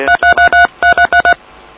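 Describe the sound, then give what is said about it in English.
Telephone keypad tones from the 3 key pressed repeatedly on a phone information line: eight loud, identical two-pitch beeps in two quick groups of four, followed by faint line hiss. “If I push 3, we can speed it up.”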